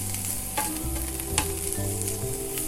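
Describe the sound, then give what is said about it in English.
Mushrooms fry in butter in a pan with a steady, dense sizzle and occasional light stirring scrapes. “So I'd say when you're about 75% done with cooking these mushrooms, maybe like 80% done cooking these mushrooms,”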